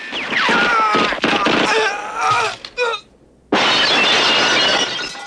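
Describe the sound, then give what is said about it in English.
Glass shattering as a man crashes down through a skylight: loud, bright breaking bursts with scattered debris, a brief lull, then another sustained noisy crash. “Shot from below, Teasel crashes down through the skylight.”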